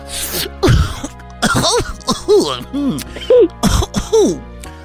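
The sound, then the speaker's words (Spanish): Raspy, strained coughing as if after smoking marijuana, done by someone playing a costumed dinosaur character: many harsh, voiced hacking bursts in an uneven run, some choked and drawn out, with brief gaps between them. “es Barney tosiendo, güey, pero marihuana así.”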